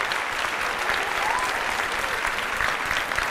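A church audience applauds in a dense, steady wash of clapping that holds at an even loudness throughout, with no individual claps standing out.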